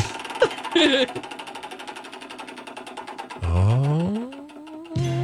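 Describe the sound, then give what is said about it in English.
Rapid ticking of a game-show roulette wheel spinning: a long, steady run of many evenly spaced clicks, then a loud rising tonal sound effect near the end. “We give the roulette wheel a spin and see which game we're playing today. Let's spin it. Let's spin it.”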